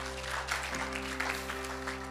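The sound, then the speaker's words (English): A church audience applauds the performers with steady clapping at an even level, over a sustained low tone. “Let's give them a great hand. That was fantastic this morning.”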